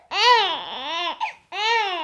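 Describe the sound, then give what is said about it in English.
Babies crying in loud, wavering wails with strongly harmonic, falling-and-rising pitch: one long cry, a brief hiccuping catch, then another sustained wail that runs to the end. “Okay, that's the sound of babies crying.”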